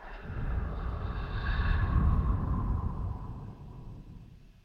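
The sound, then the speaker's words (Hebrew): A slow, deep breath taken during a guided breathing exercise. A soft, airy rush swells gradually and then fades over several seconds. It is quiet, with no speech. “ובואו ניקח כמה נשימות פנימה, נשימה אחת עמוקה, נספור עד 5, ונוציא.”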